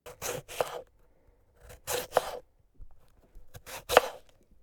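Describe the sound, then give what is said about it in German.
A knife chopping cucumbers into slices: short, crisp cuts in quick clusters of a few strokes, separated by brief pauses, fairly quiet and with no talk. “Und was du abgewaschen hast, das kann ich schon klein schneiden. Die Gurken in Scheiben.”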